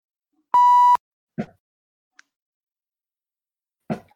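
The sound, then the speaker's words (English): A censorship bleep: a single steady, high tone lasting about half a second, followed by a few brief, short fragments of speech separated by silence. “Censor the next thing I say.”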